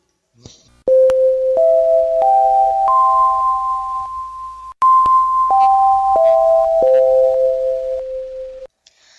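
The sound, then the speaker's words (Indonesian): Electronic school bell chime signalling the start of class, playing two loud phrases of sustained tones: four notes stepping upward, a brief gap, then four notes stepping back down. “Mohon perhatian, bel tanda masuk telah berbunyi.”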